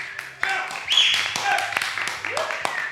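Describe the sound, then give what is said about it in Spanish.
An audience at a talk on alcohol applauds with scattered, sharp separate hand claps that mix with voices and sustained tones. “que queremos recibir todos con un fuerte aplauso, por favor, muchachos”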